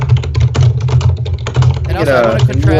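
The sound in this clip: Rapid typing on a computer keyboard makes many quick, light clicks in a busy stream while a voice talks over them.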